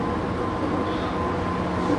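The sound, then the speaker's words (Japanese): A train arriving at platform 10 of a station, heard as a loud, steady, low rumble with broad even noise that holds constant throughout. “10番線の到着、お出口は左側です。”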